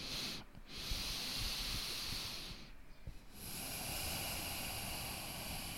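Slow breathing in and out during a guided breathing exercise, heard as long, steady breathy rushes of air broken by two short pauses.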